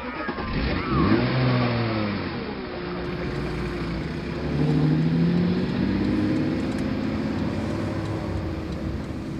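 A car starts and pulls away, its engine swelling in a revving surge near the start and again midway, then settling into a steady, mid-pitched drone.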